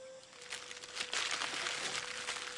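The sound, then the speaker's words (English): Wax paper wrapping crumpled in the hands: faint, dry crinkles and crackles in quick irregular bursts, growing a little busier midway, over a steady low hum. “Polk crumples up a wax paper wrapping and hands it to Miss Daisy.”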